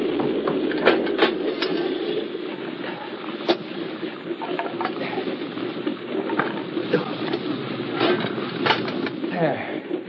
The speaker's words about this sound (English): we could use a little more wood on this stove.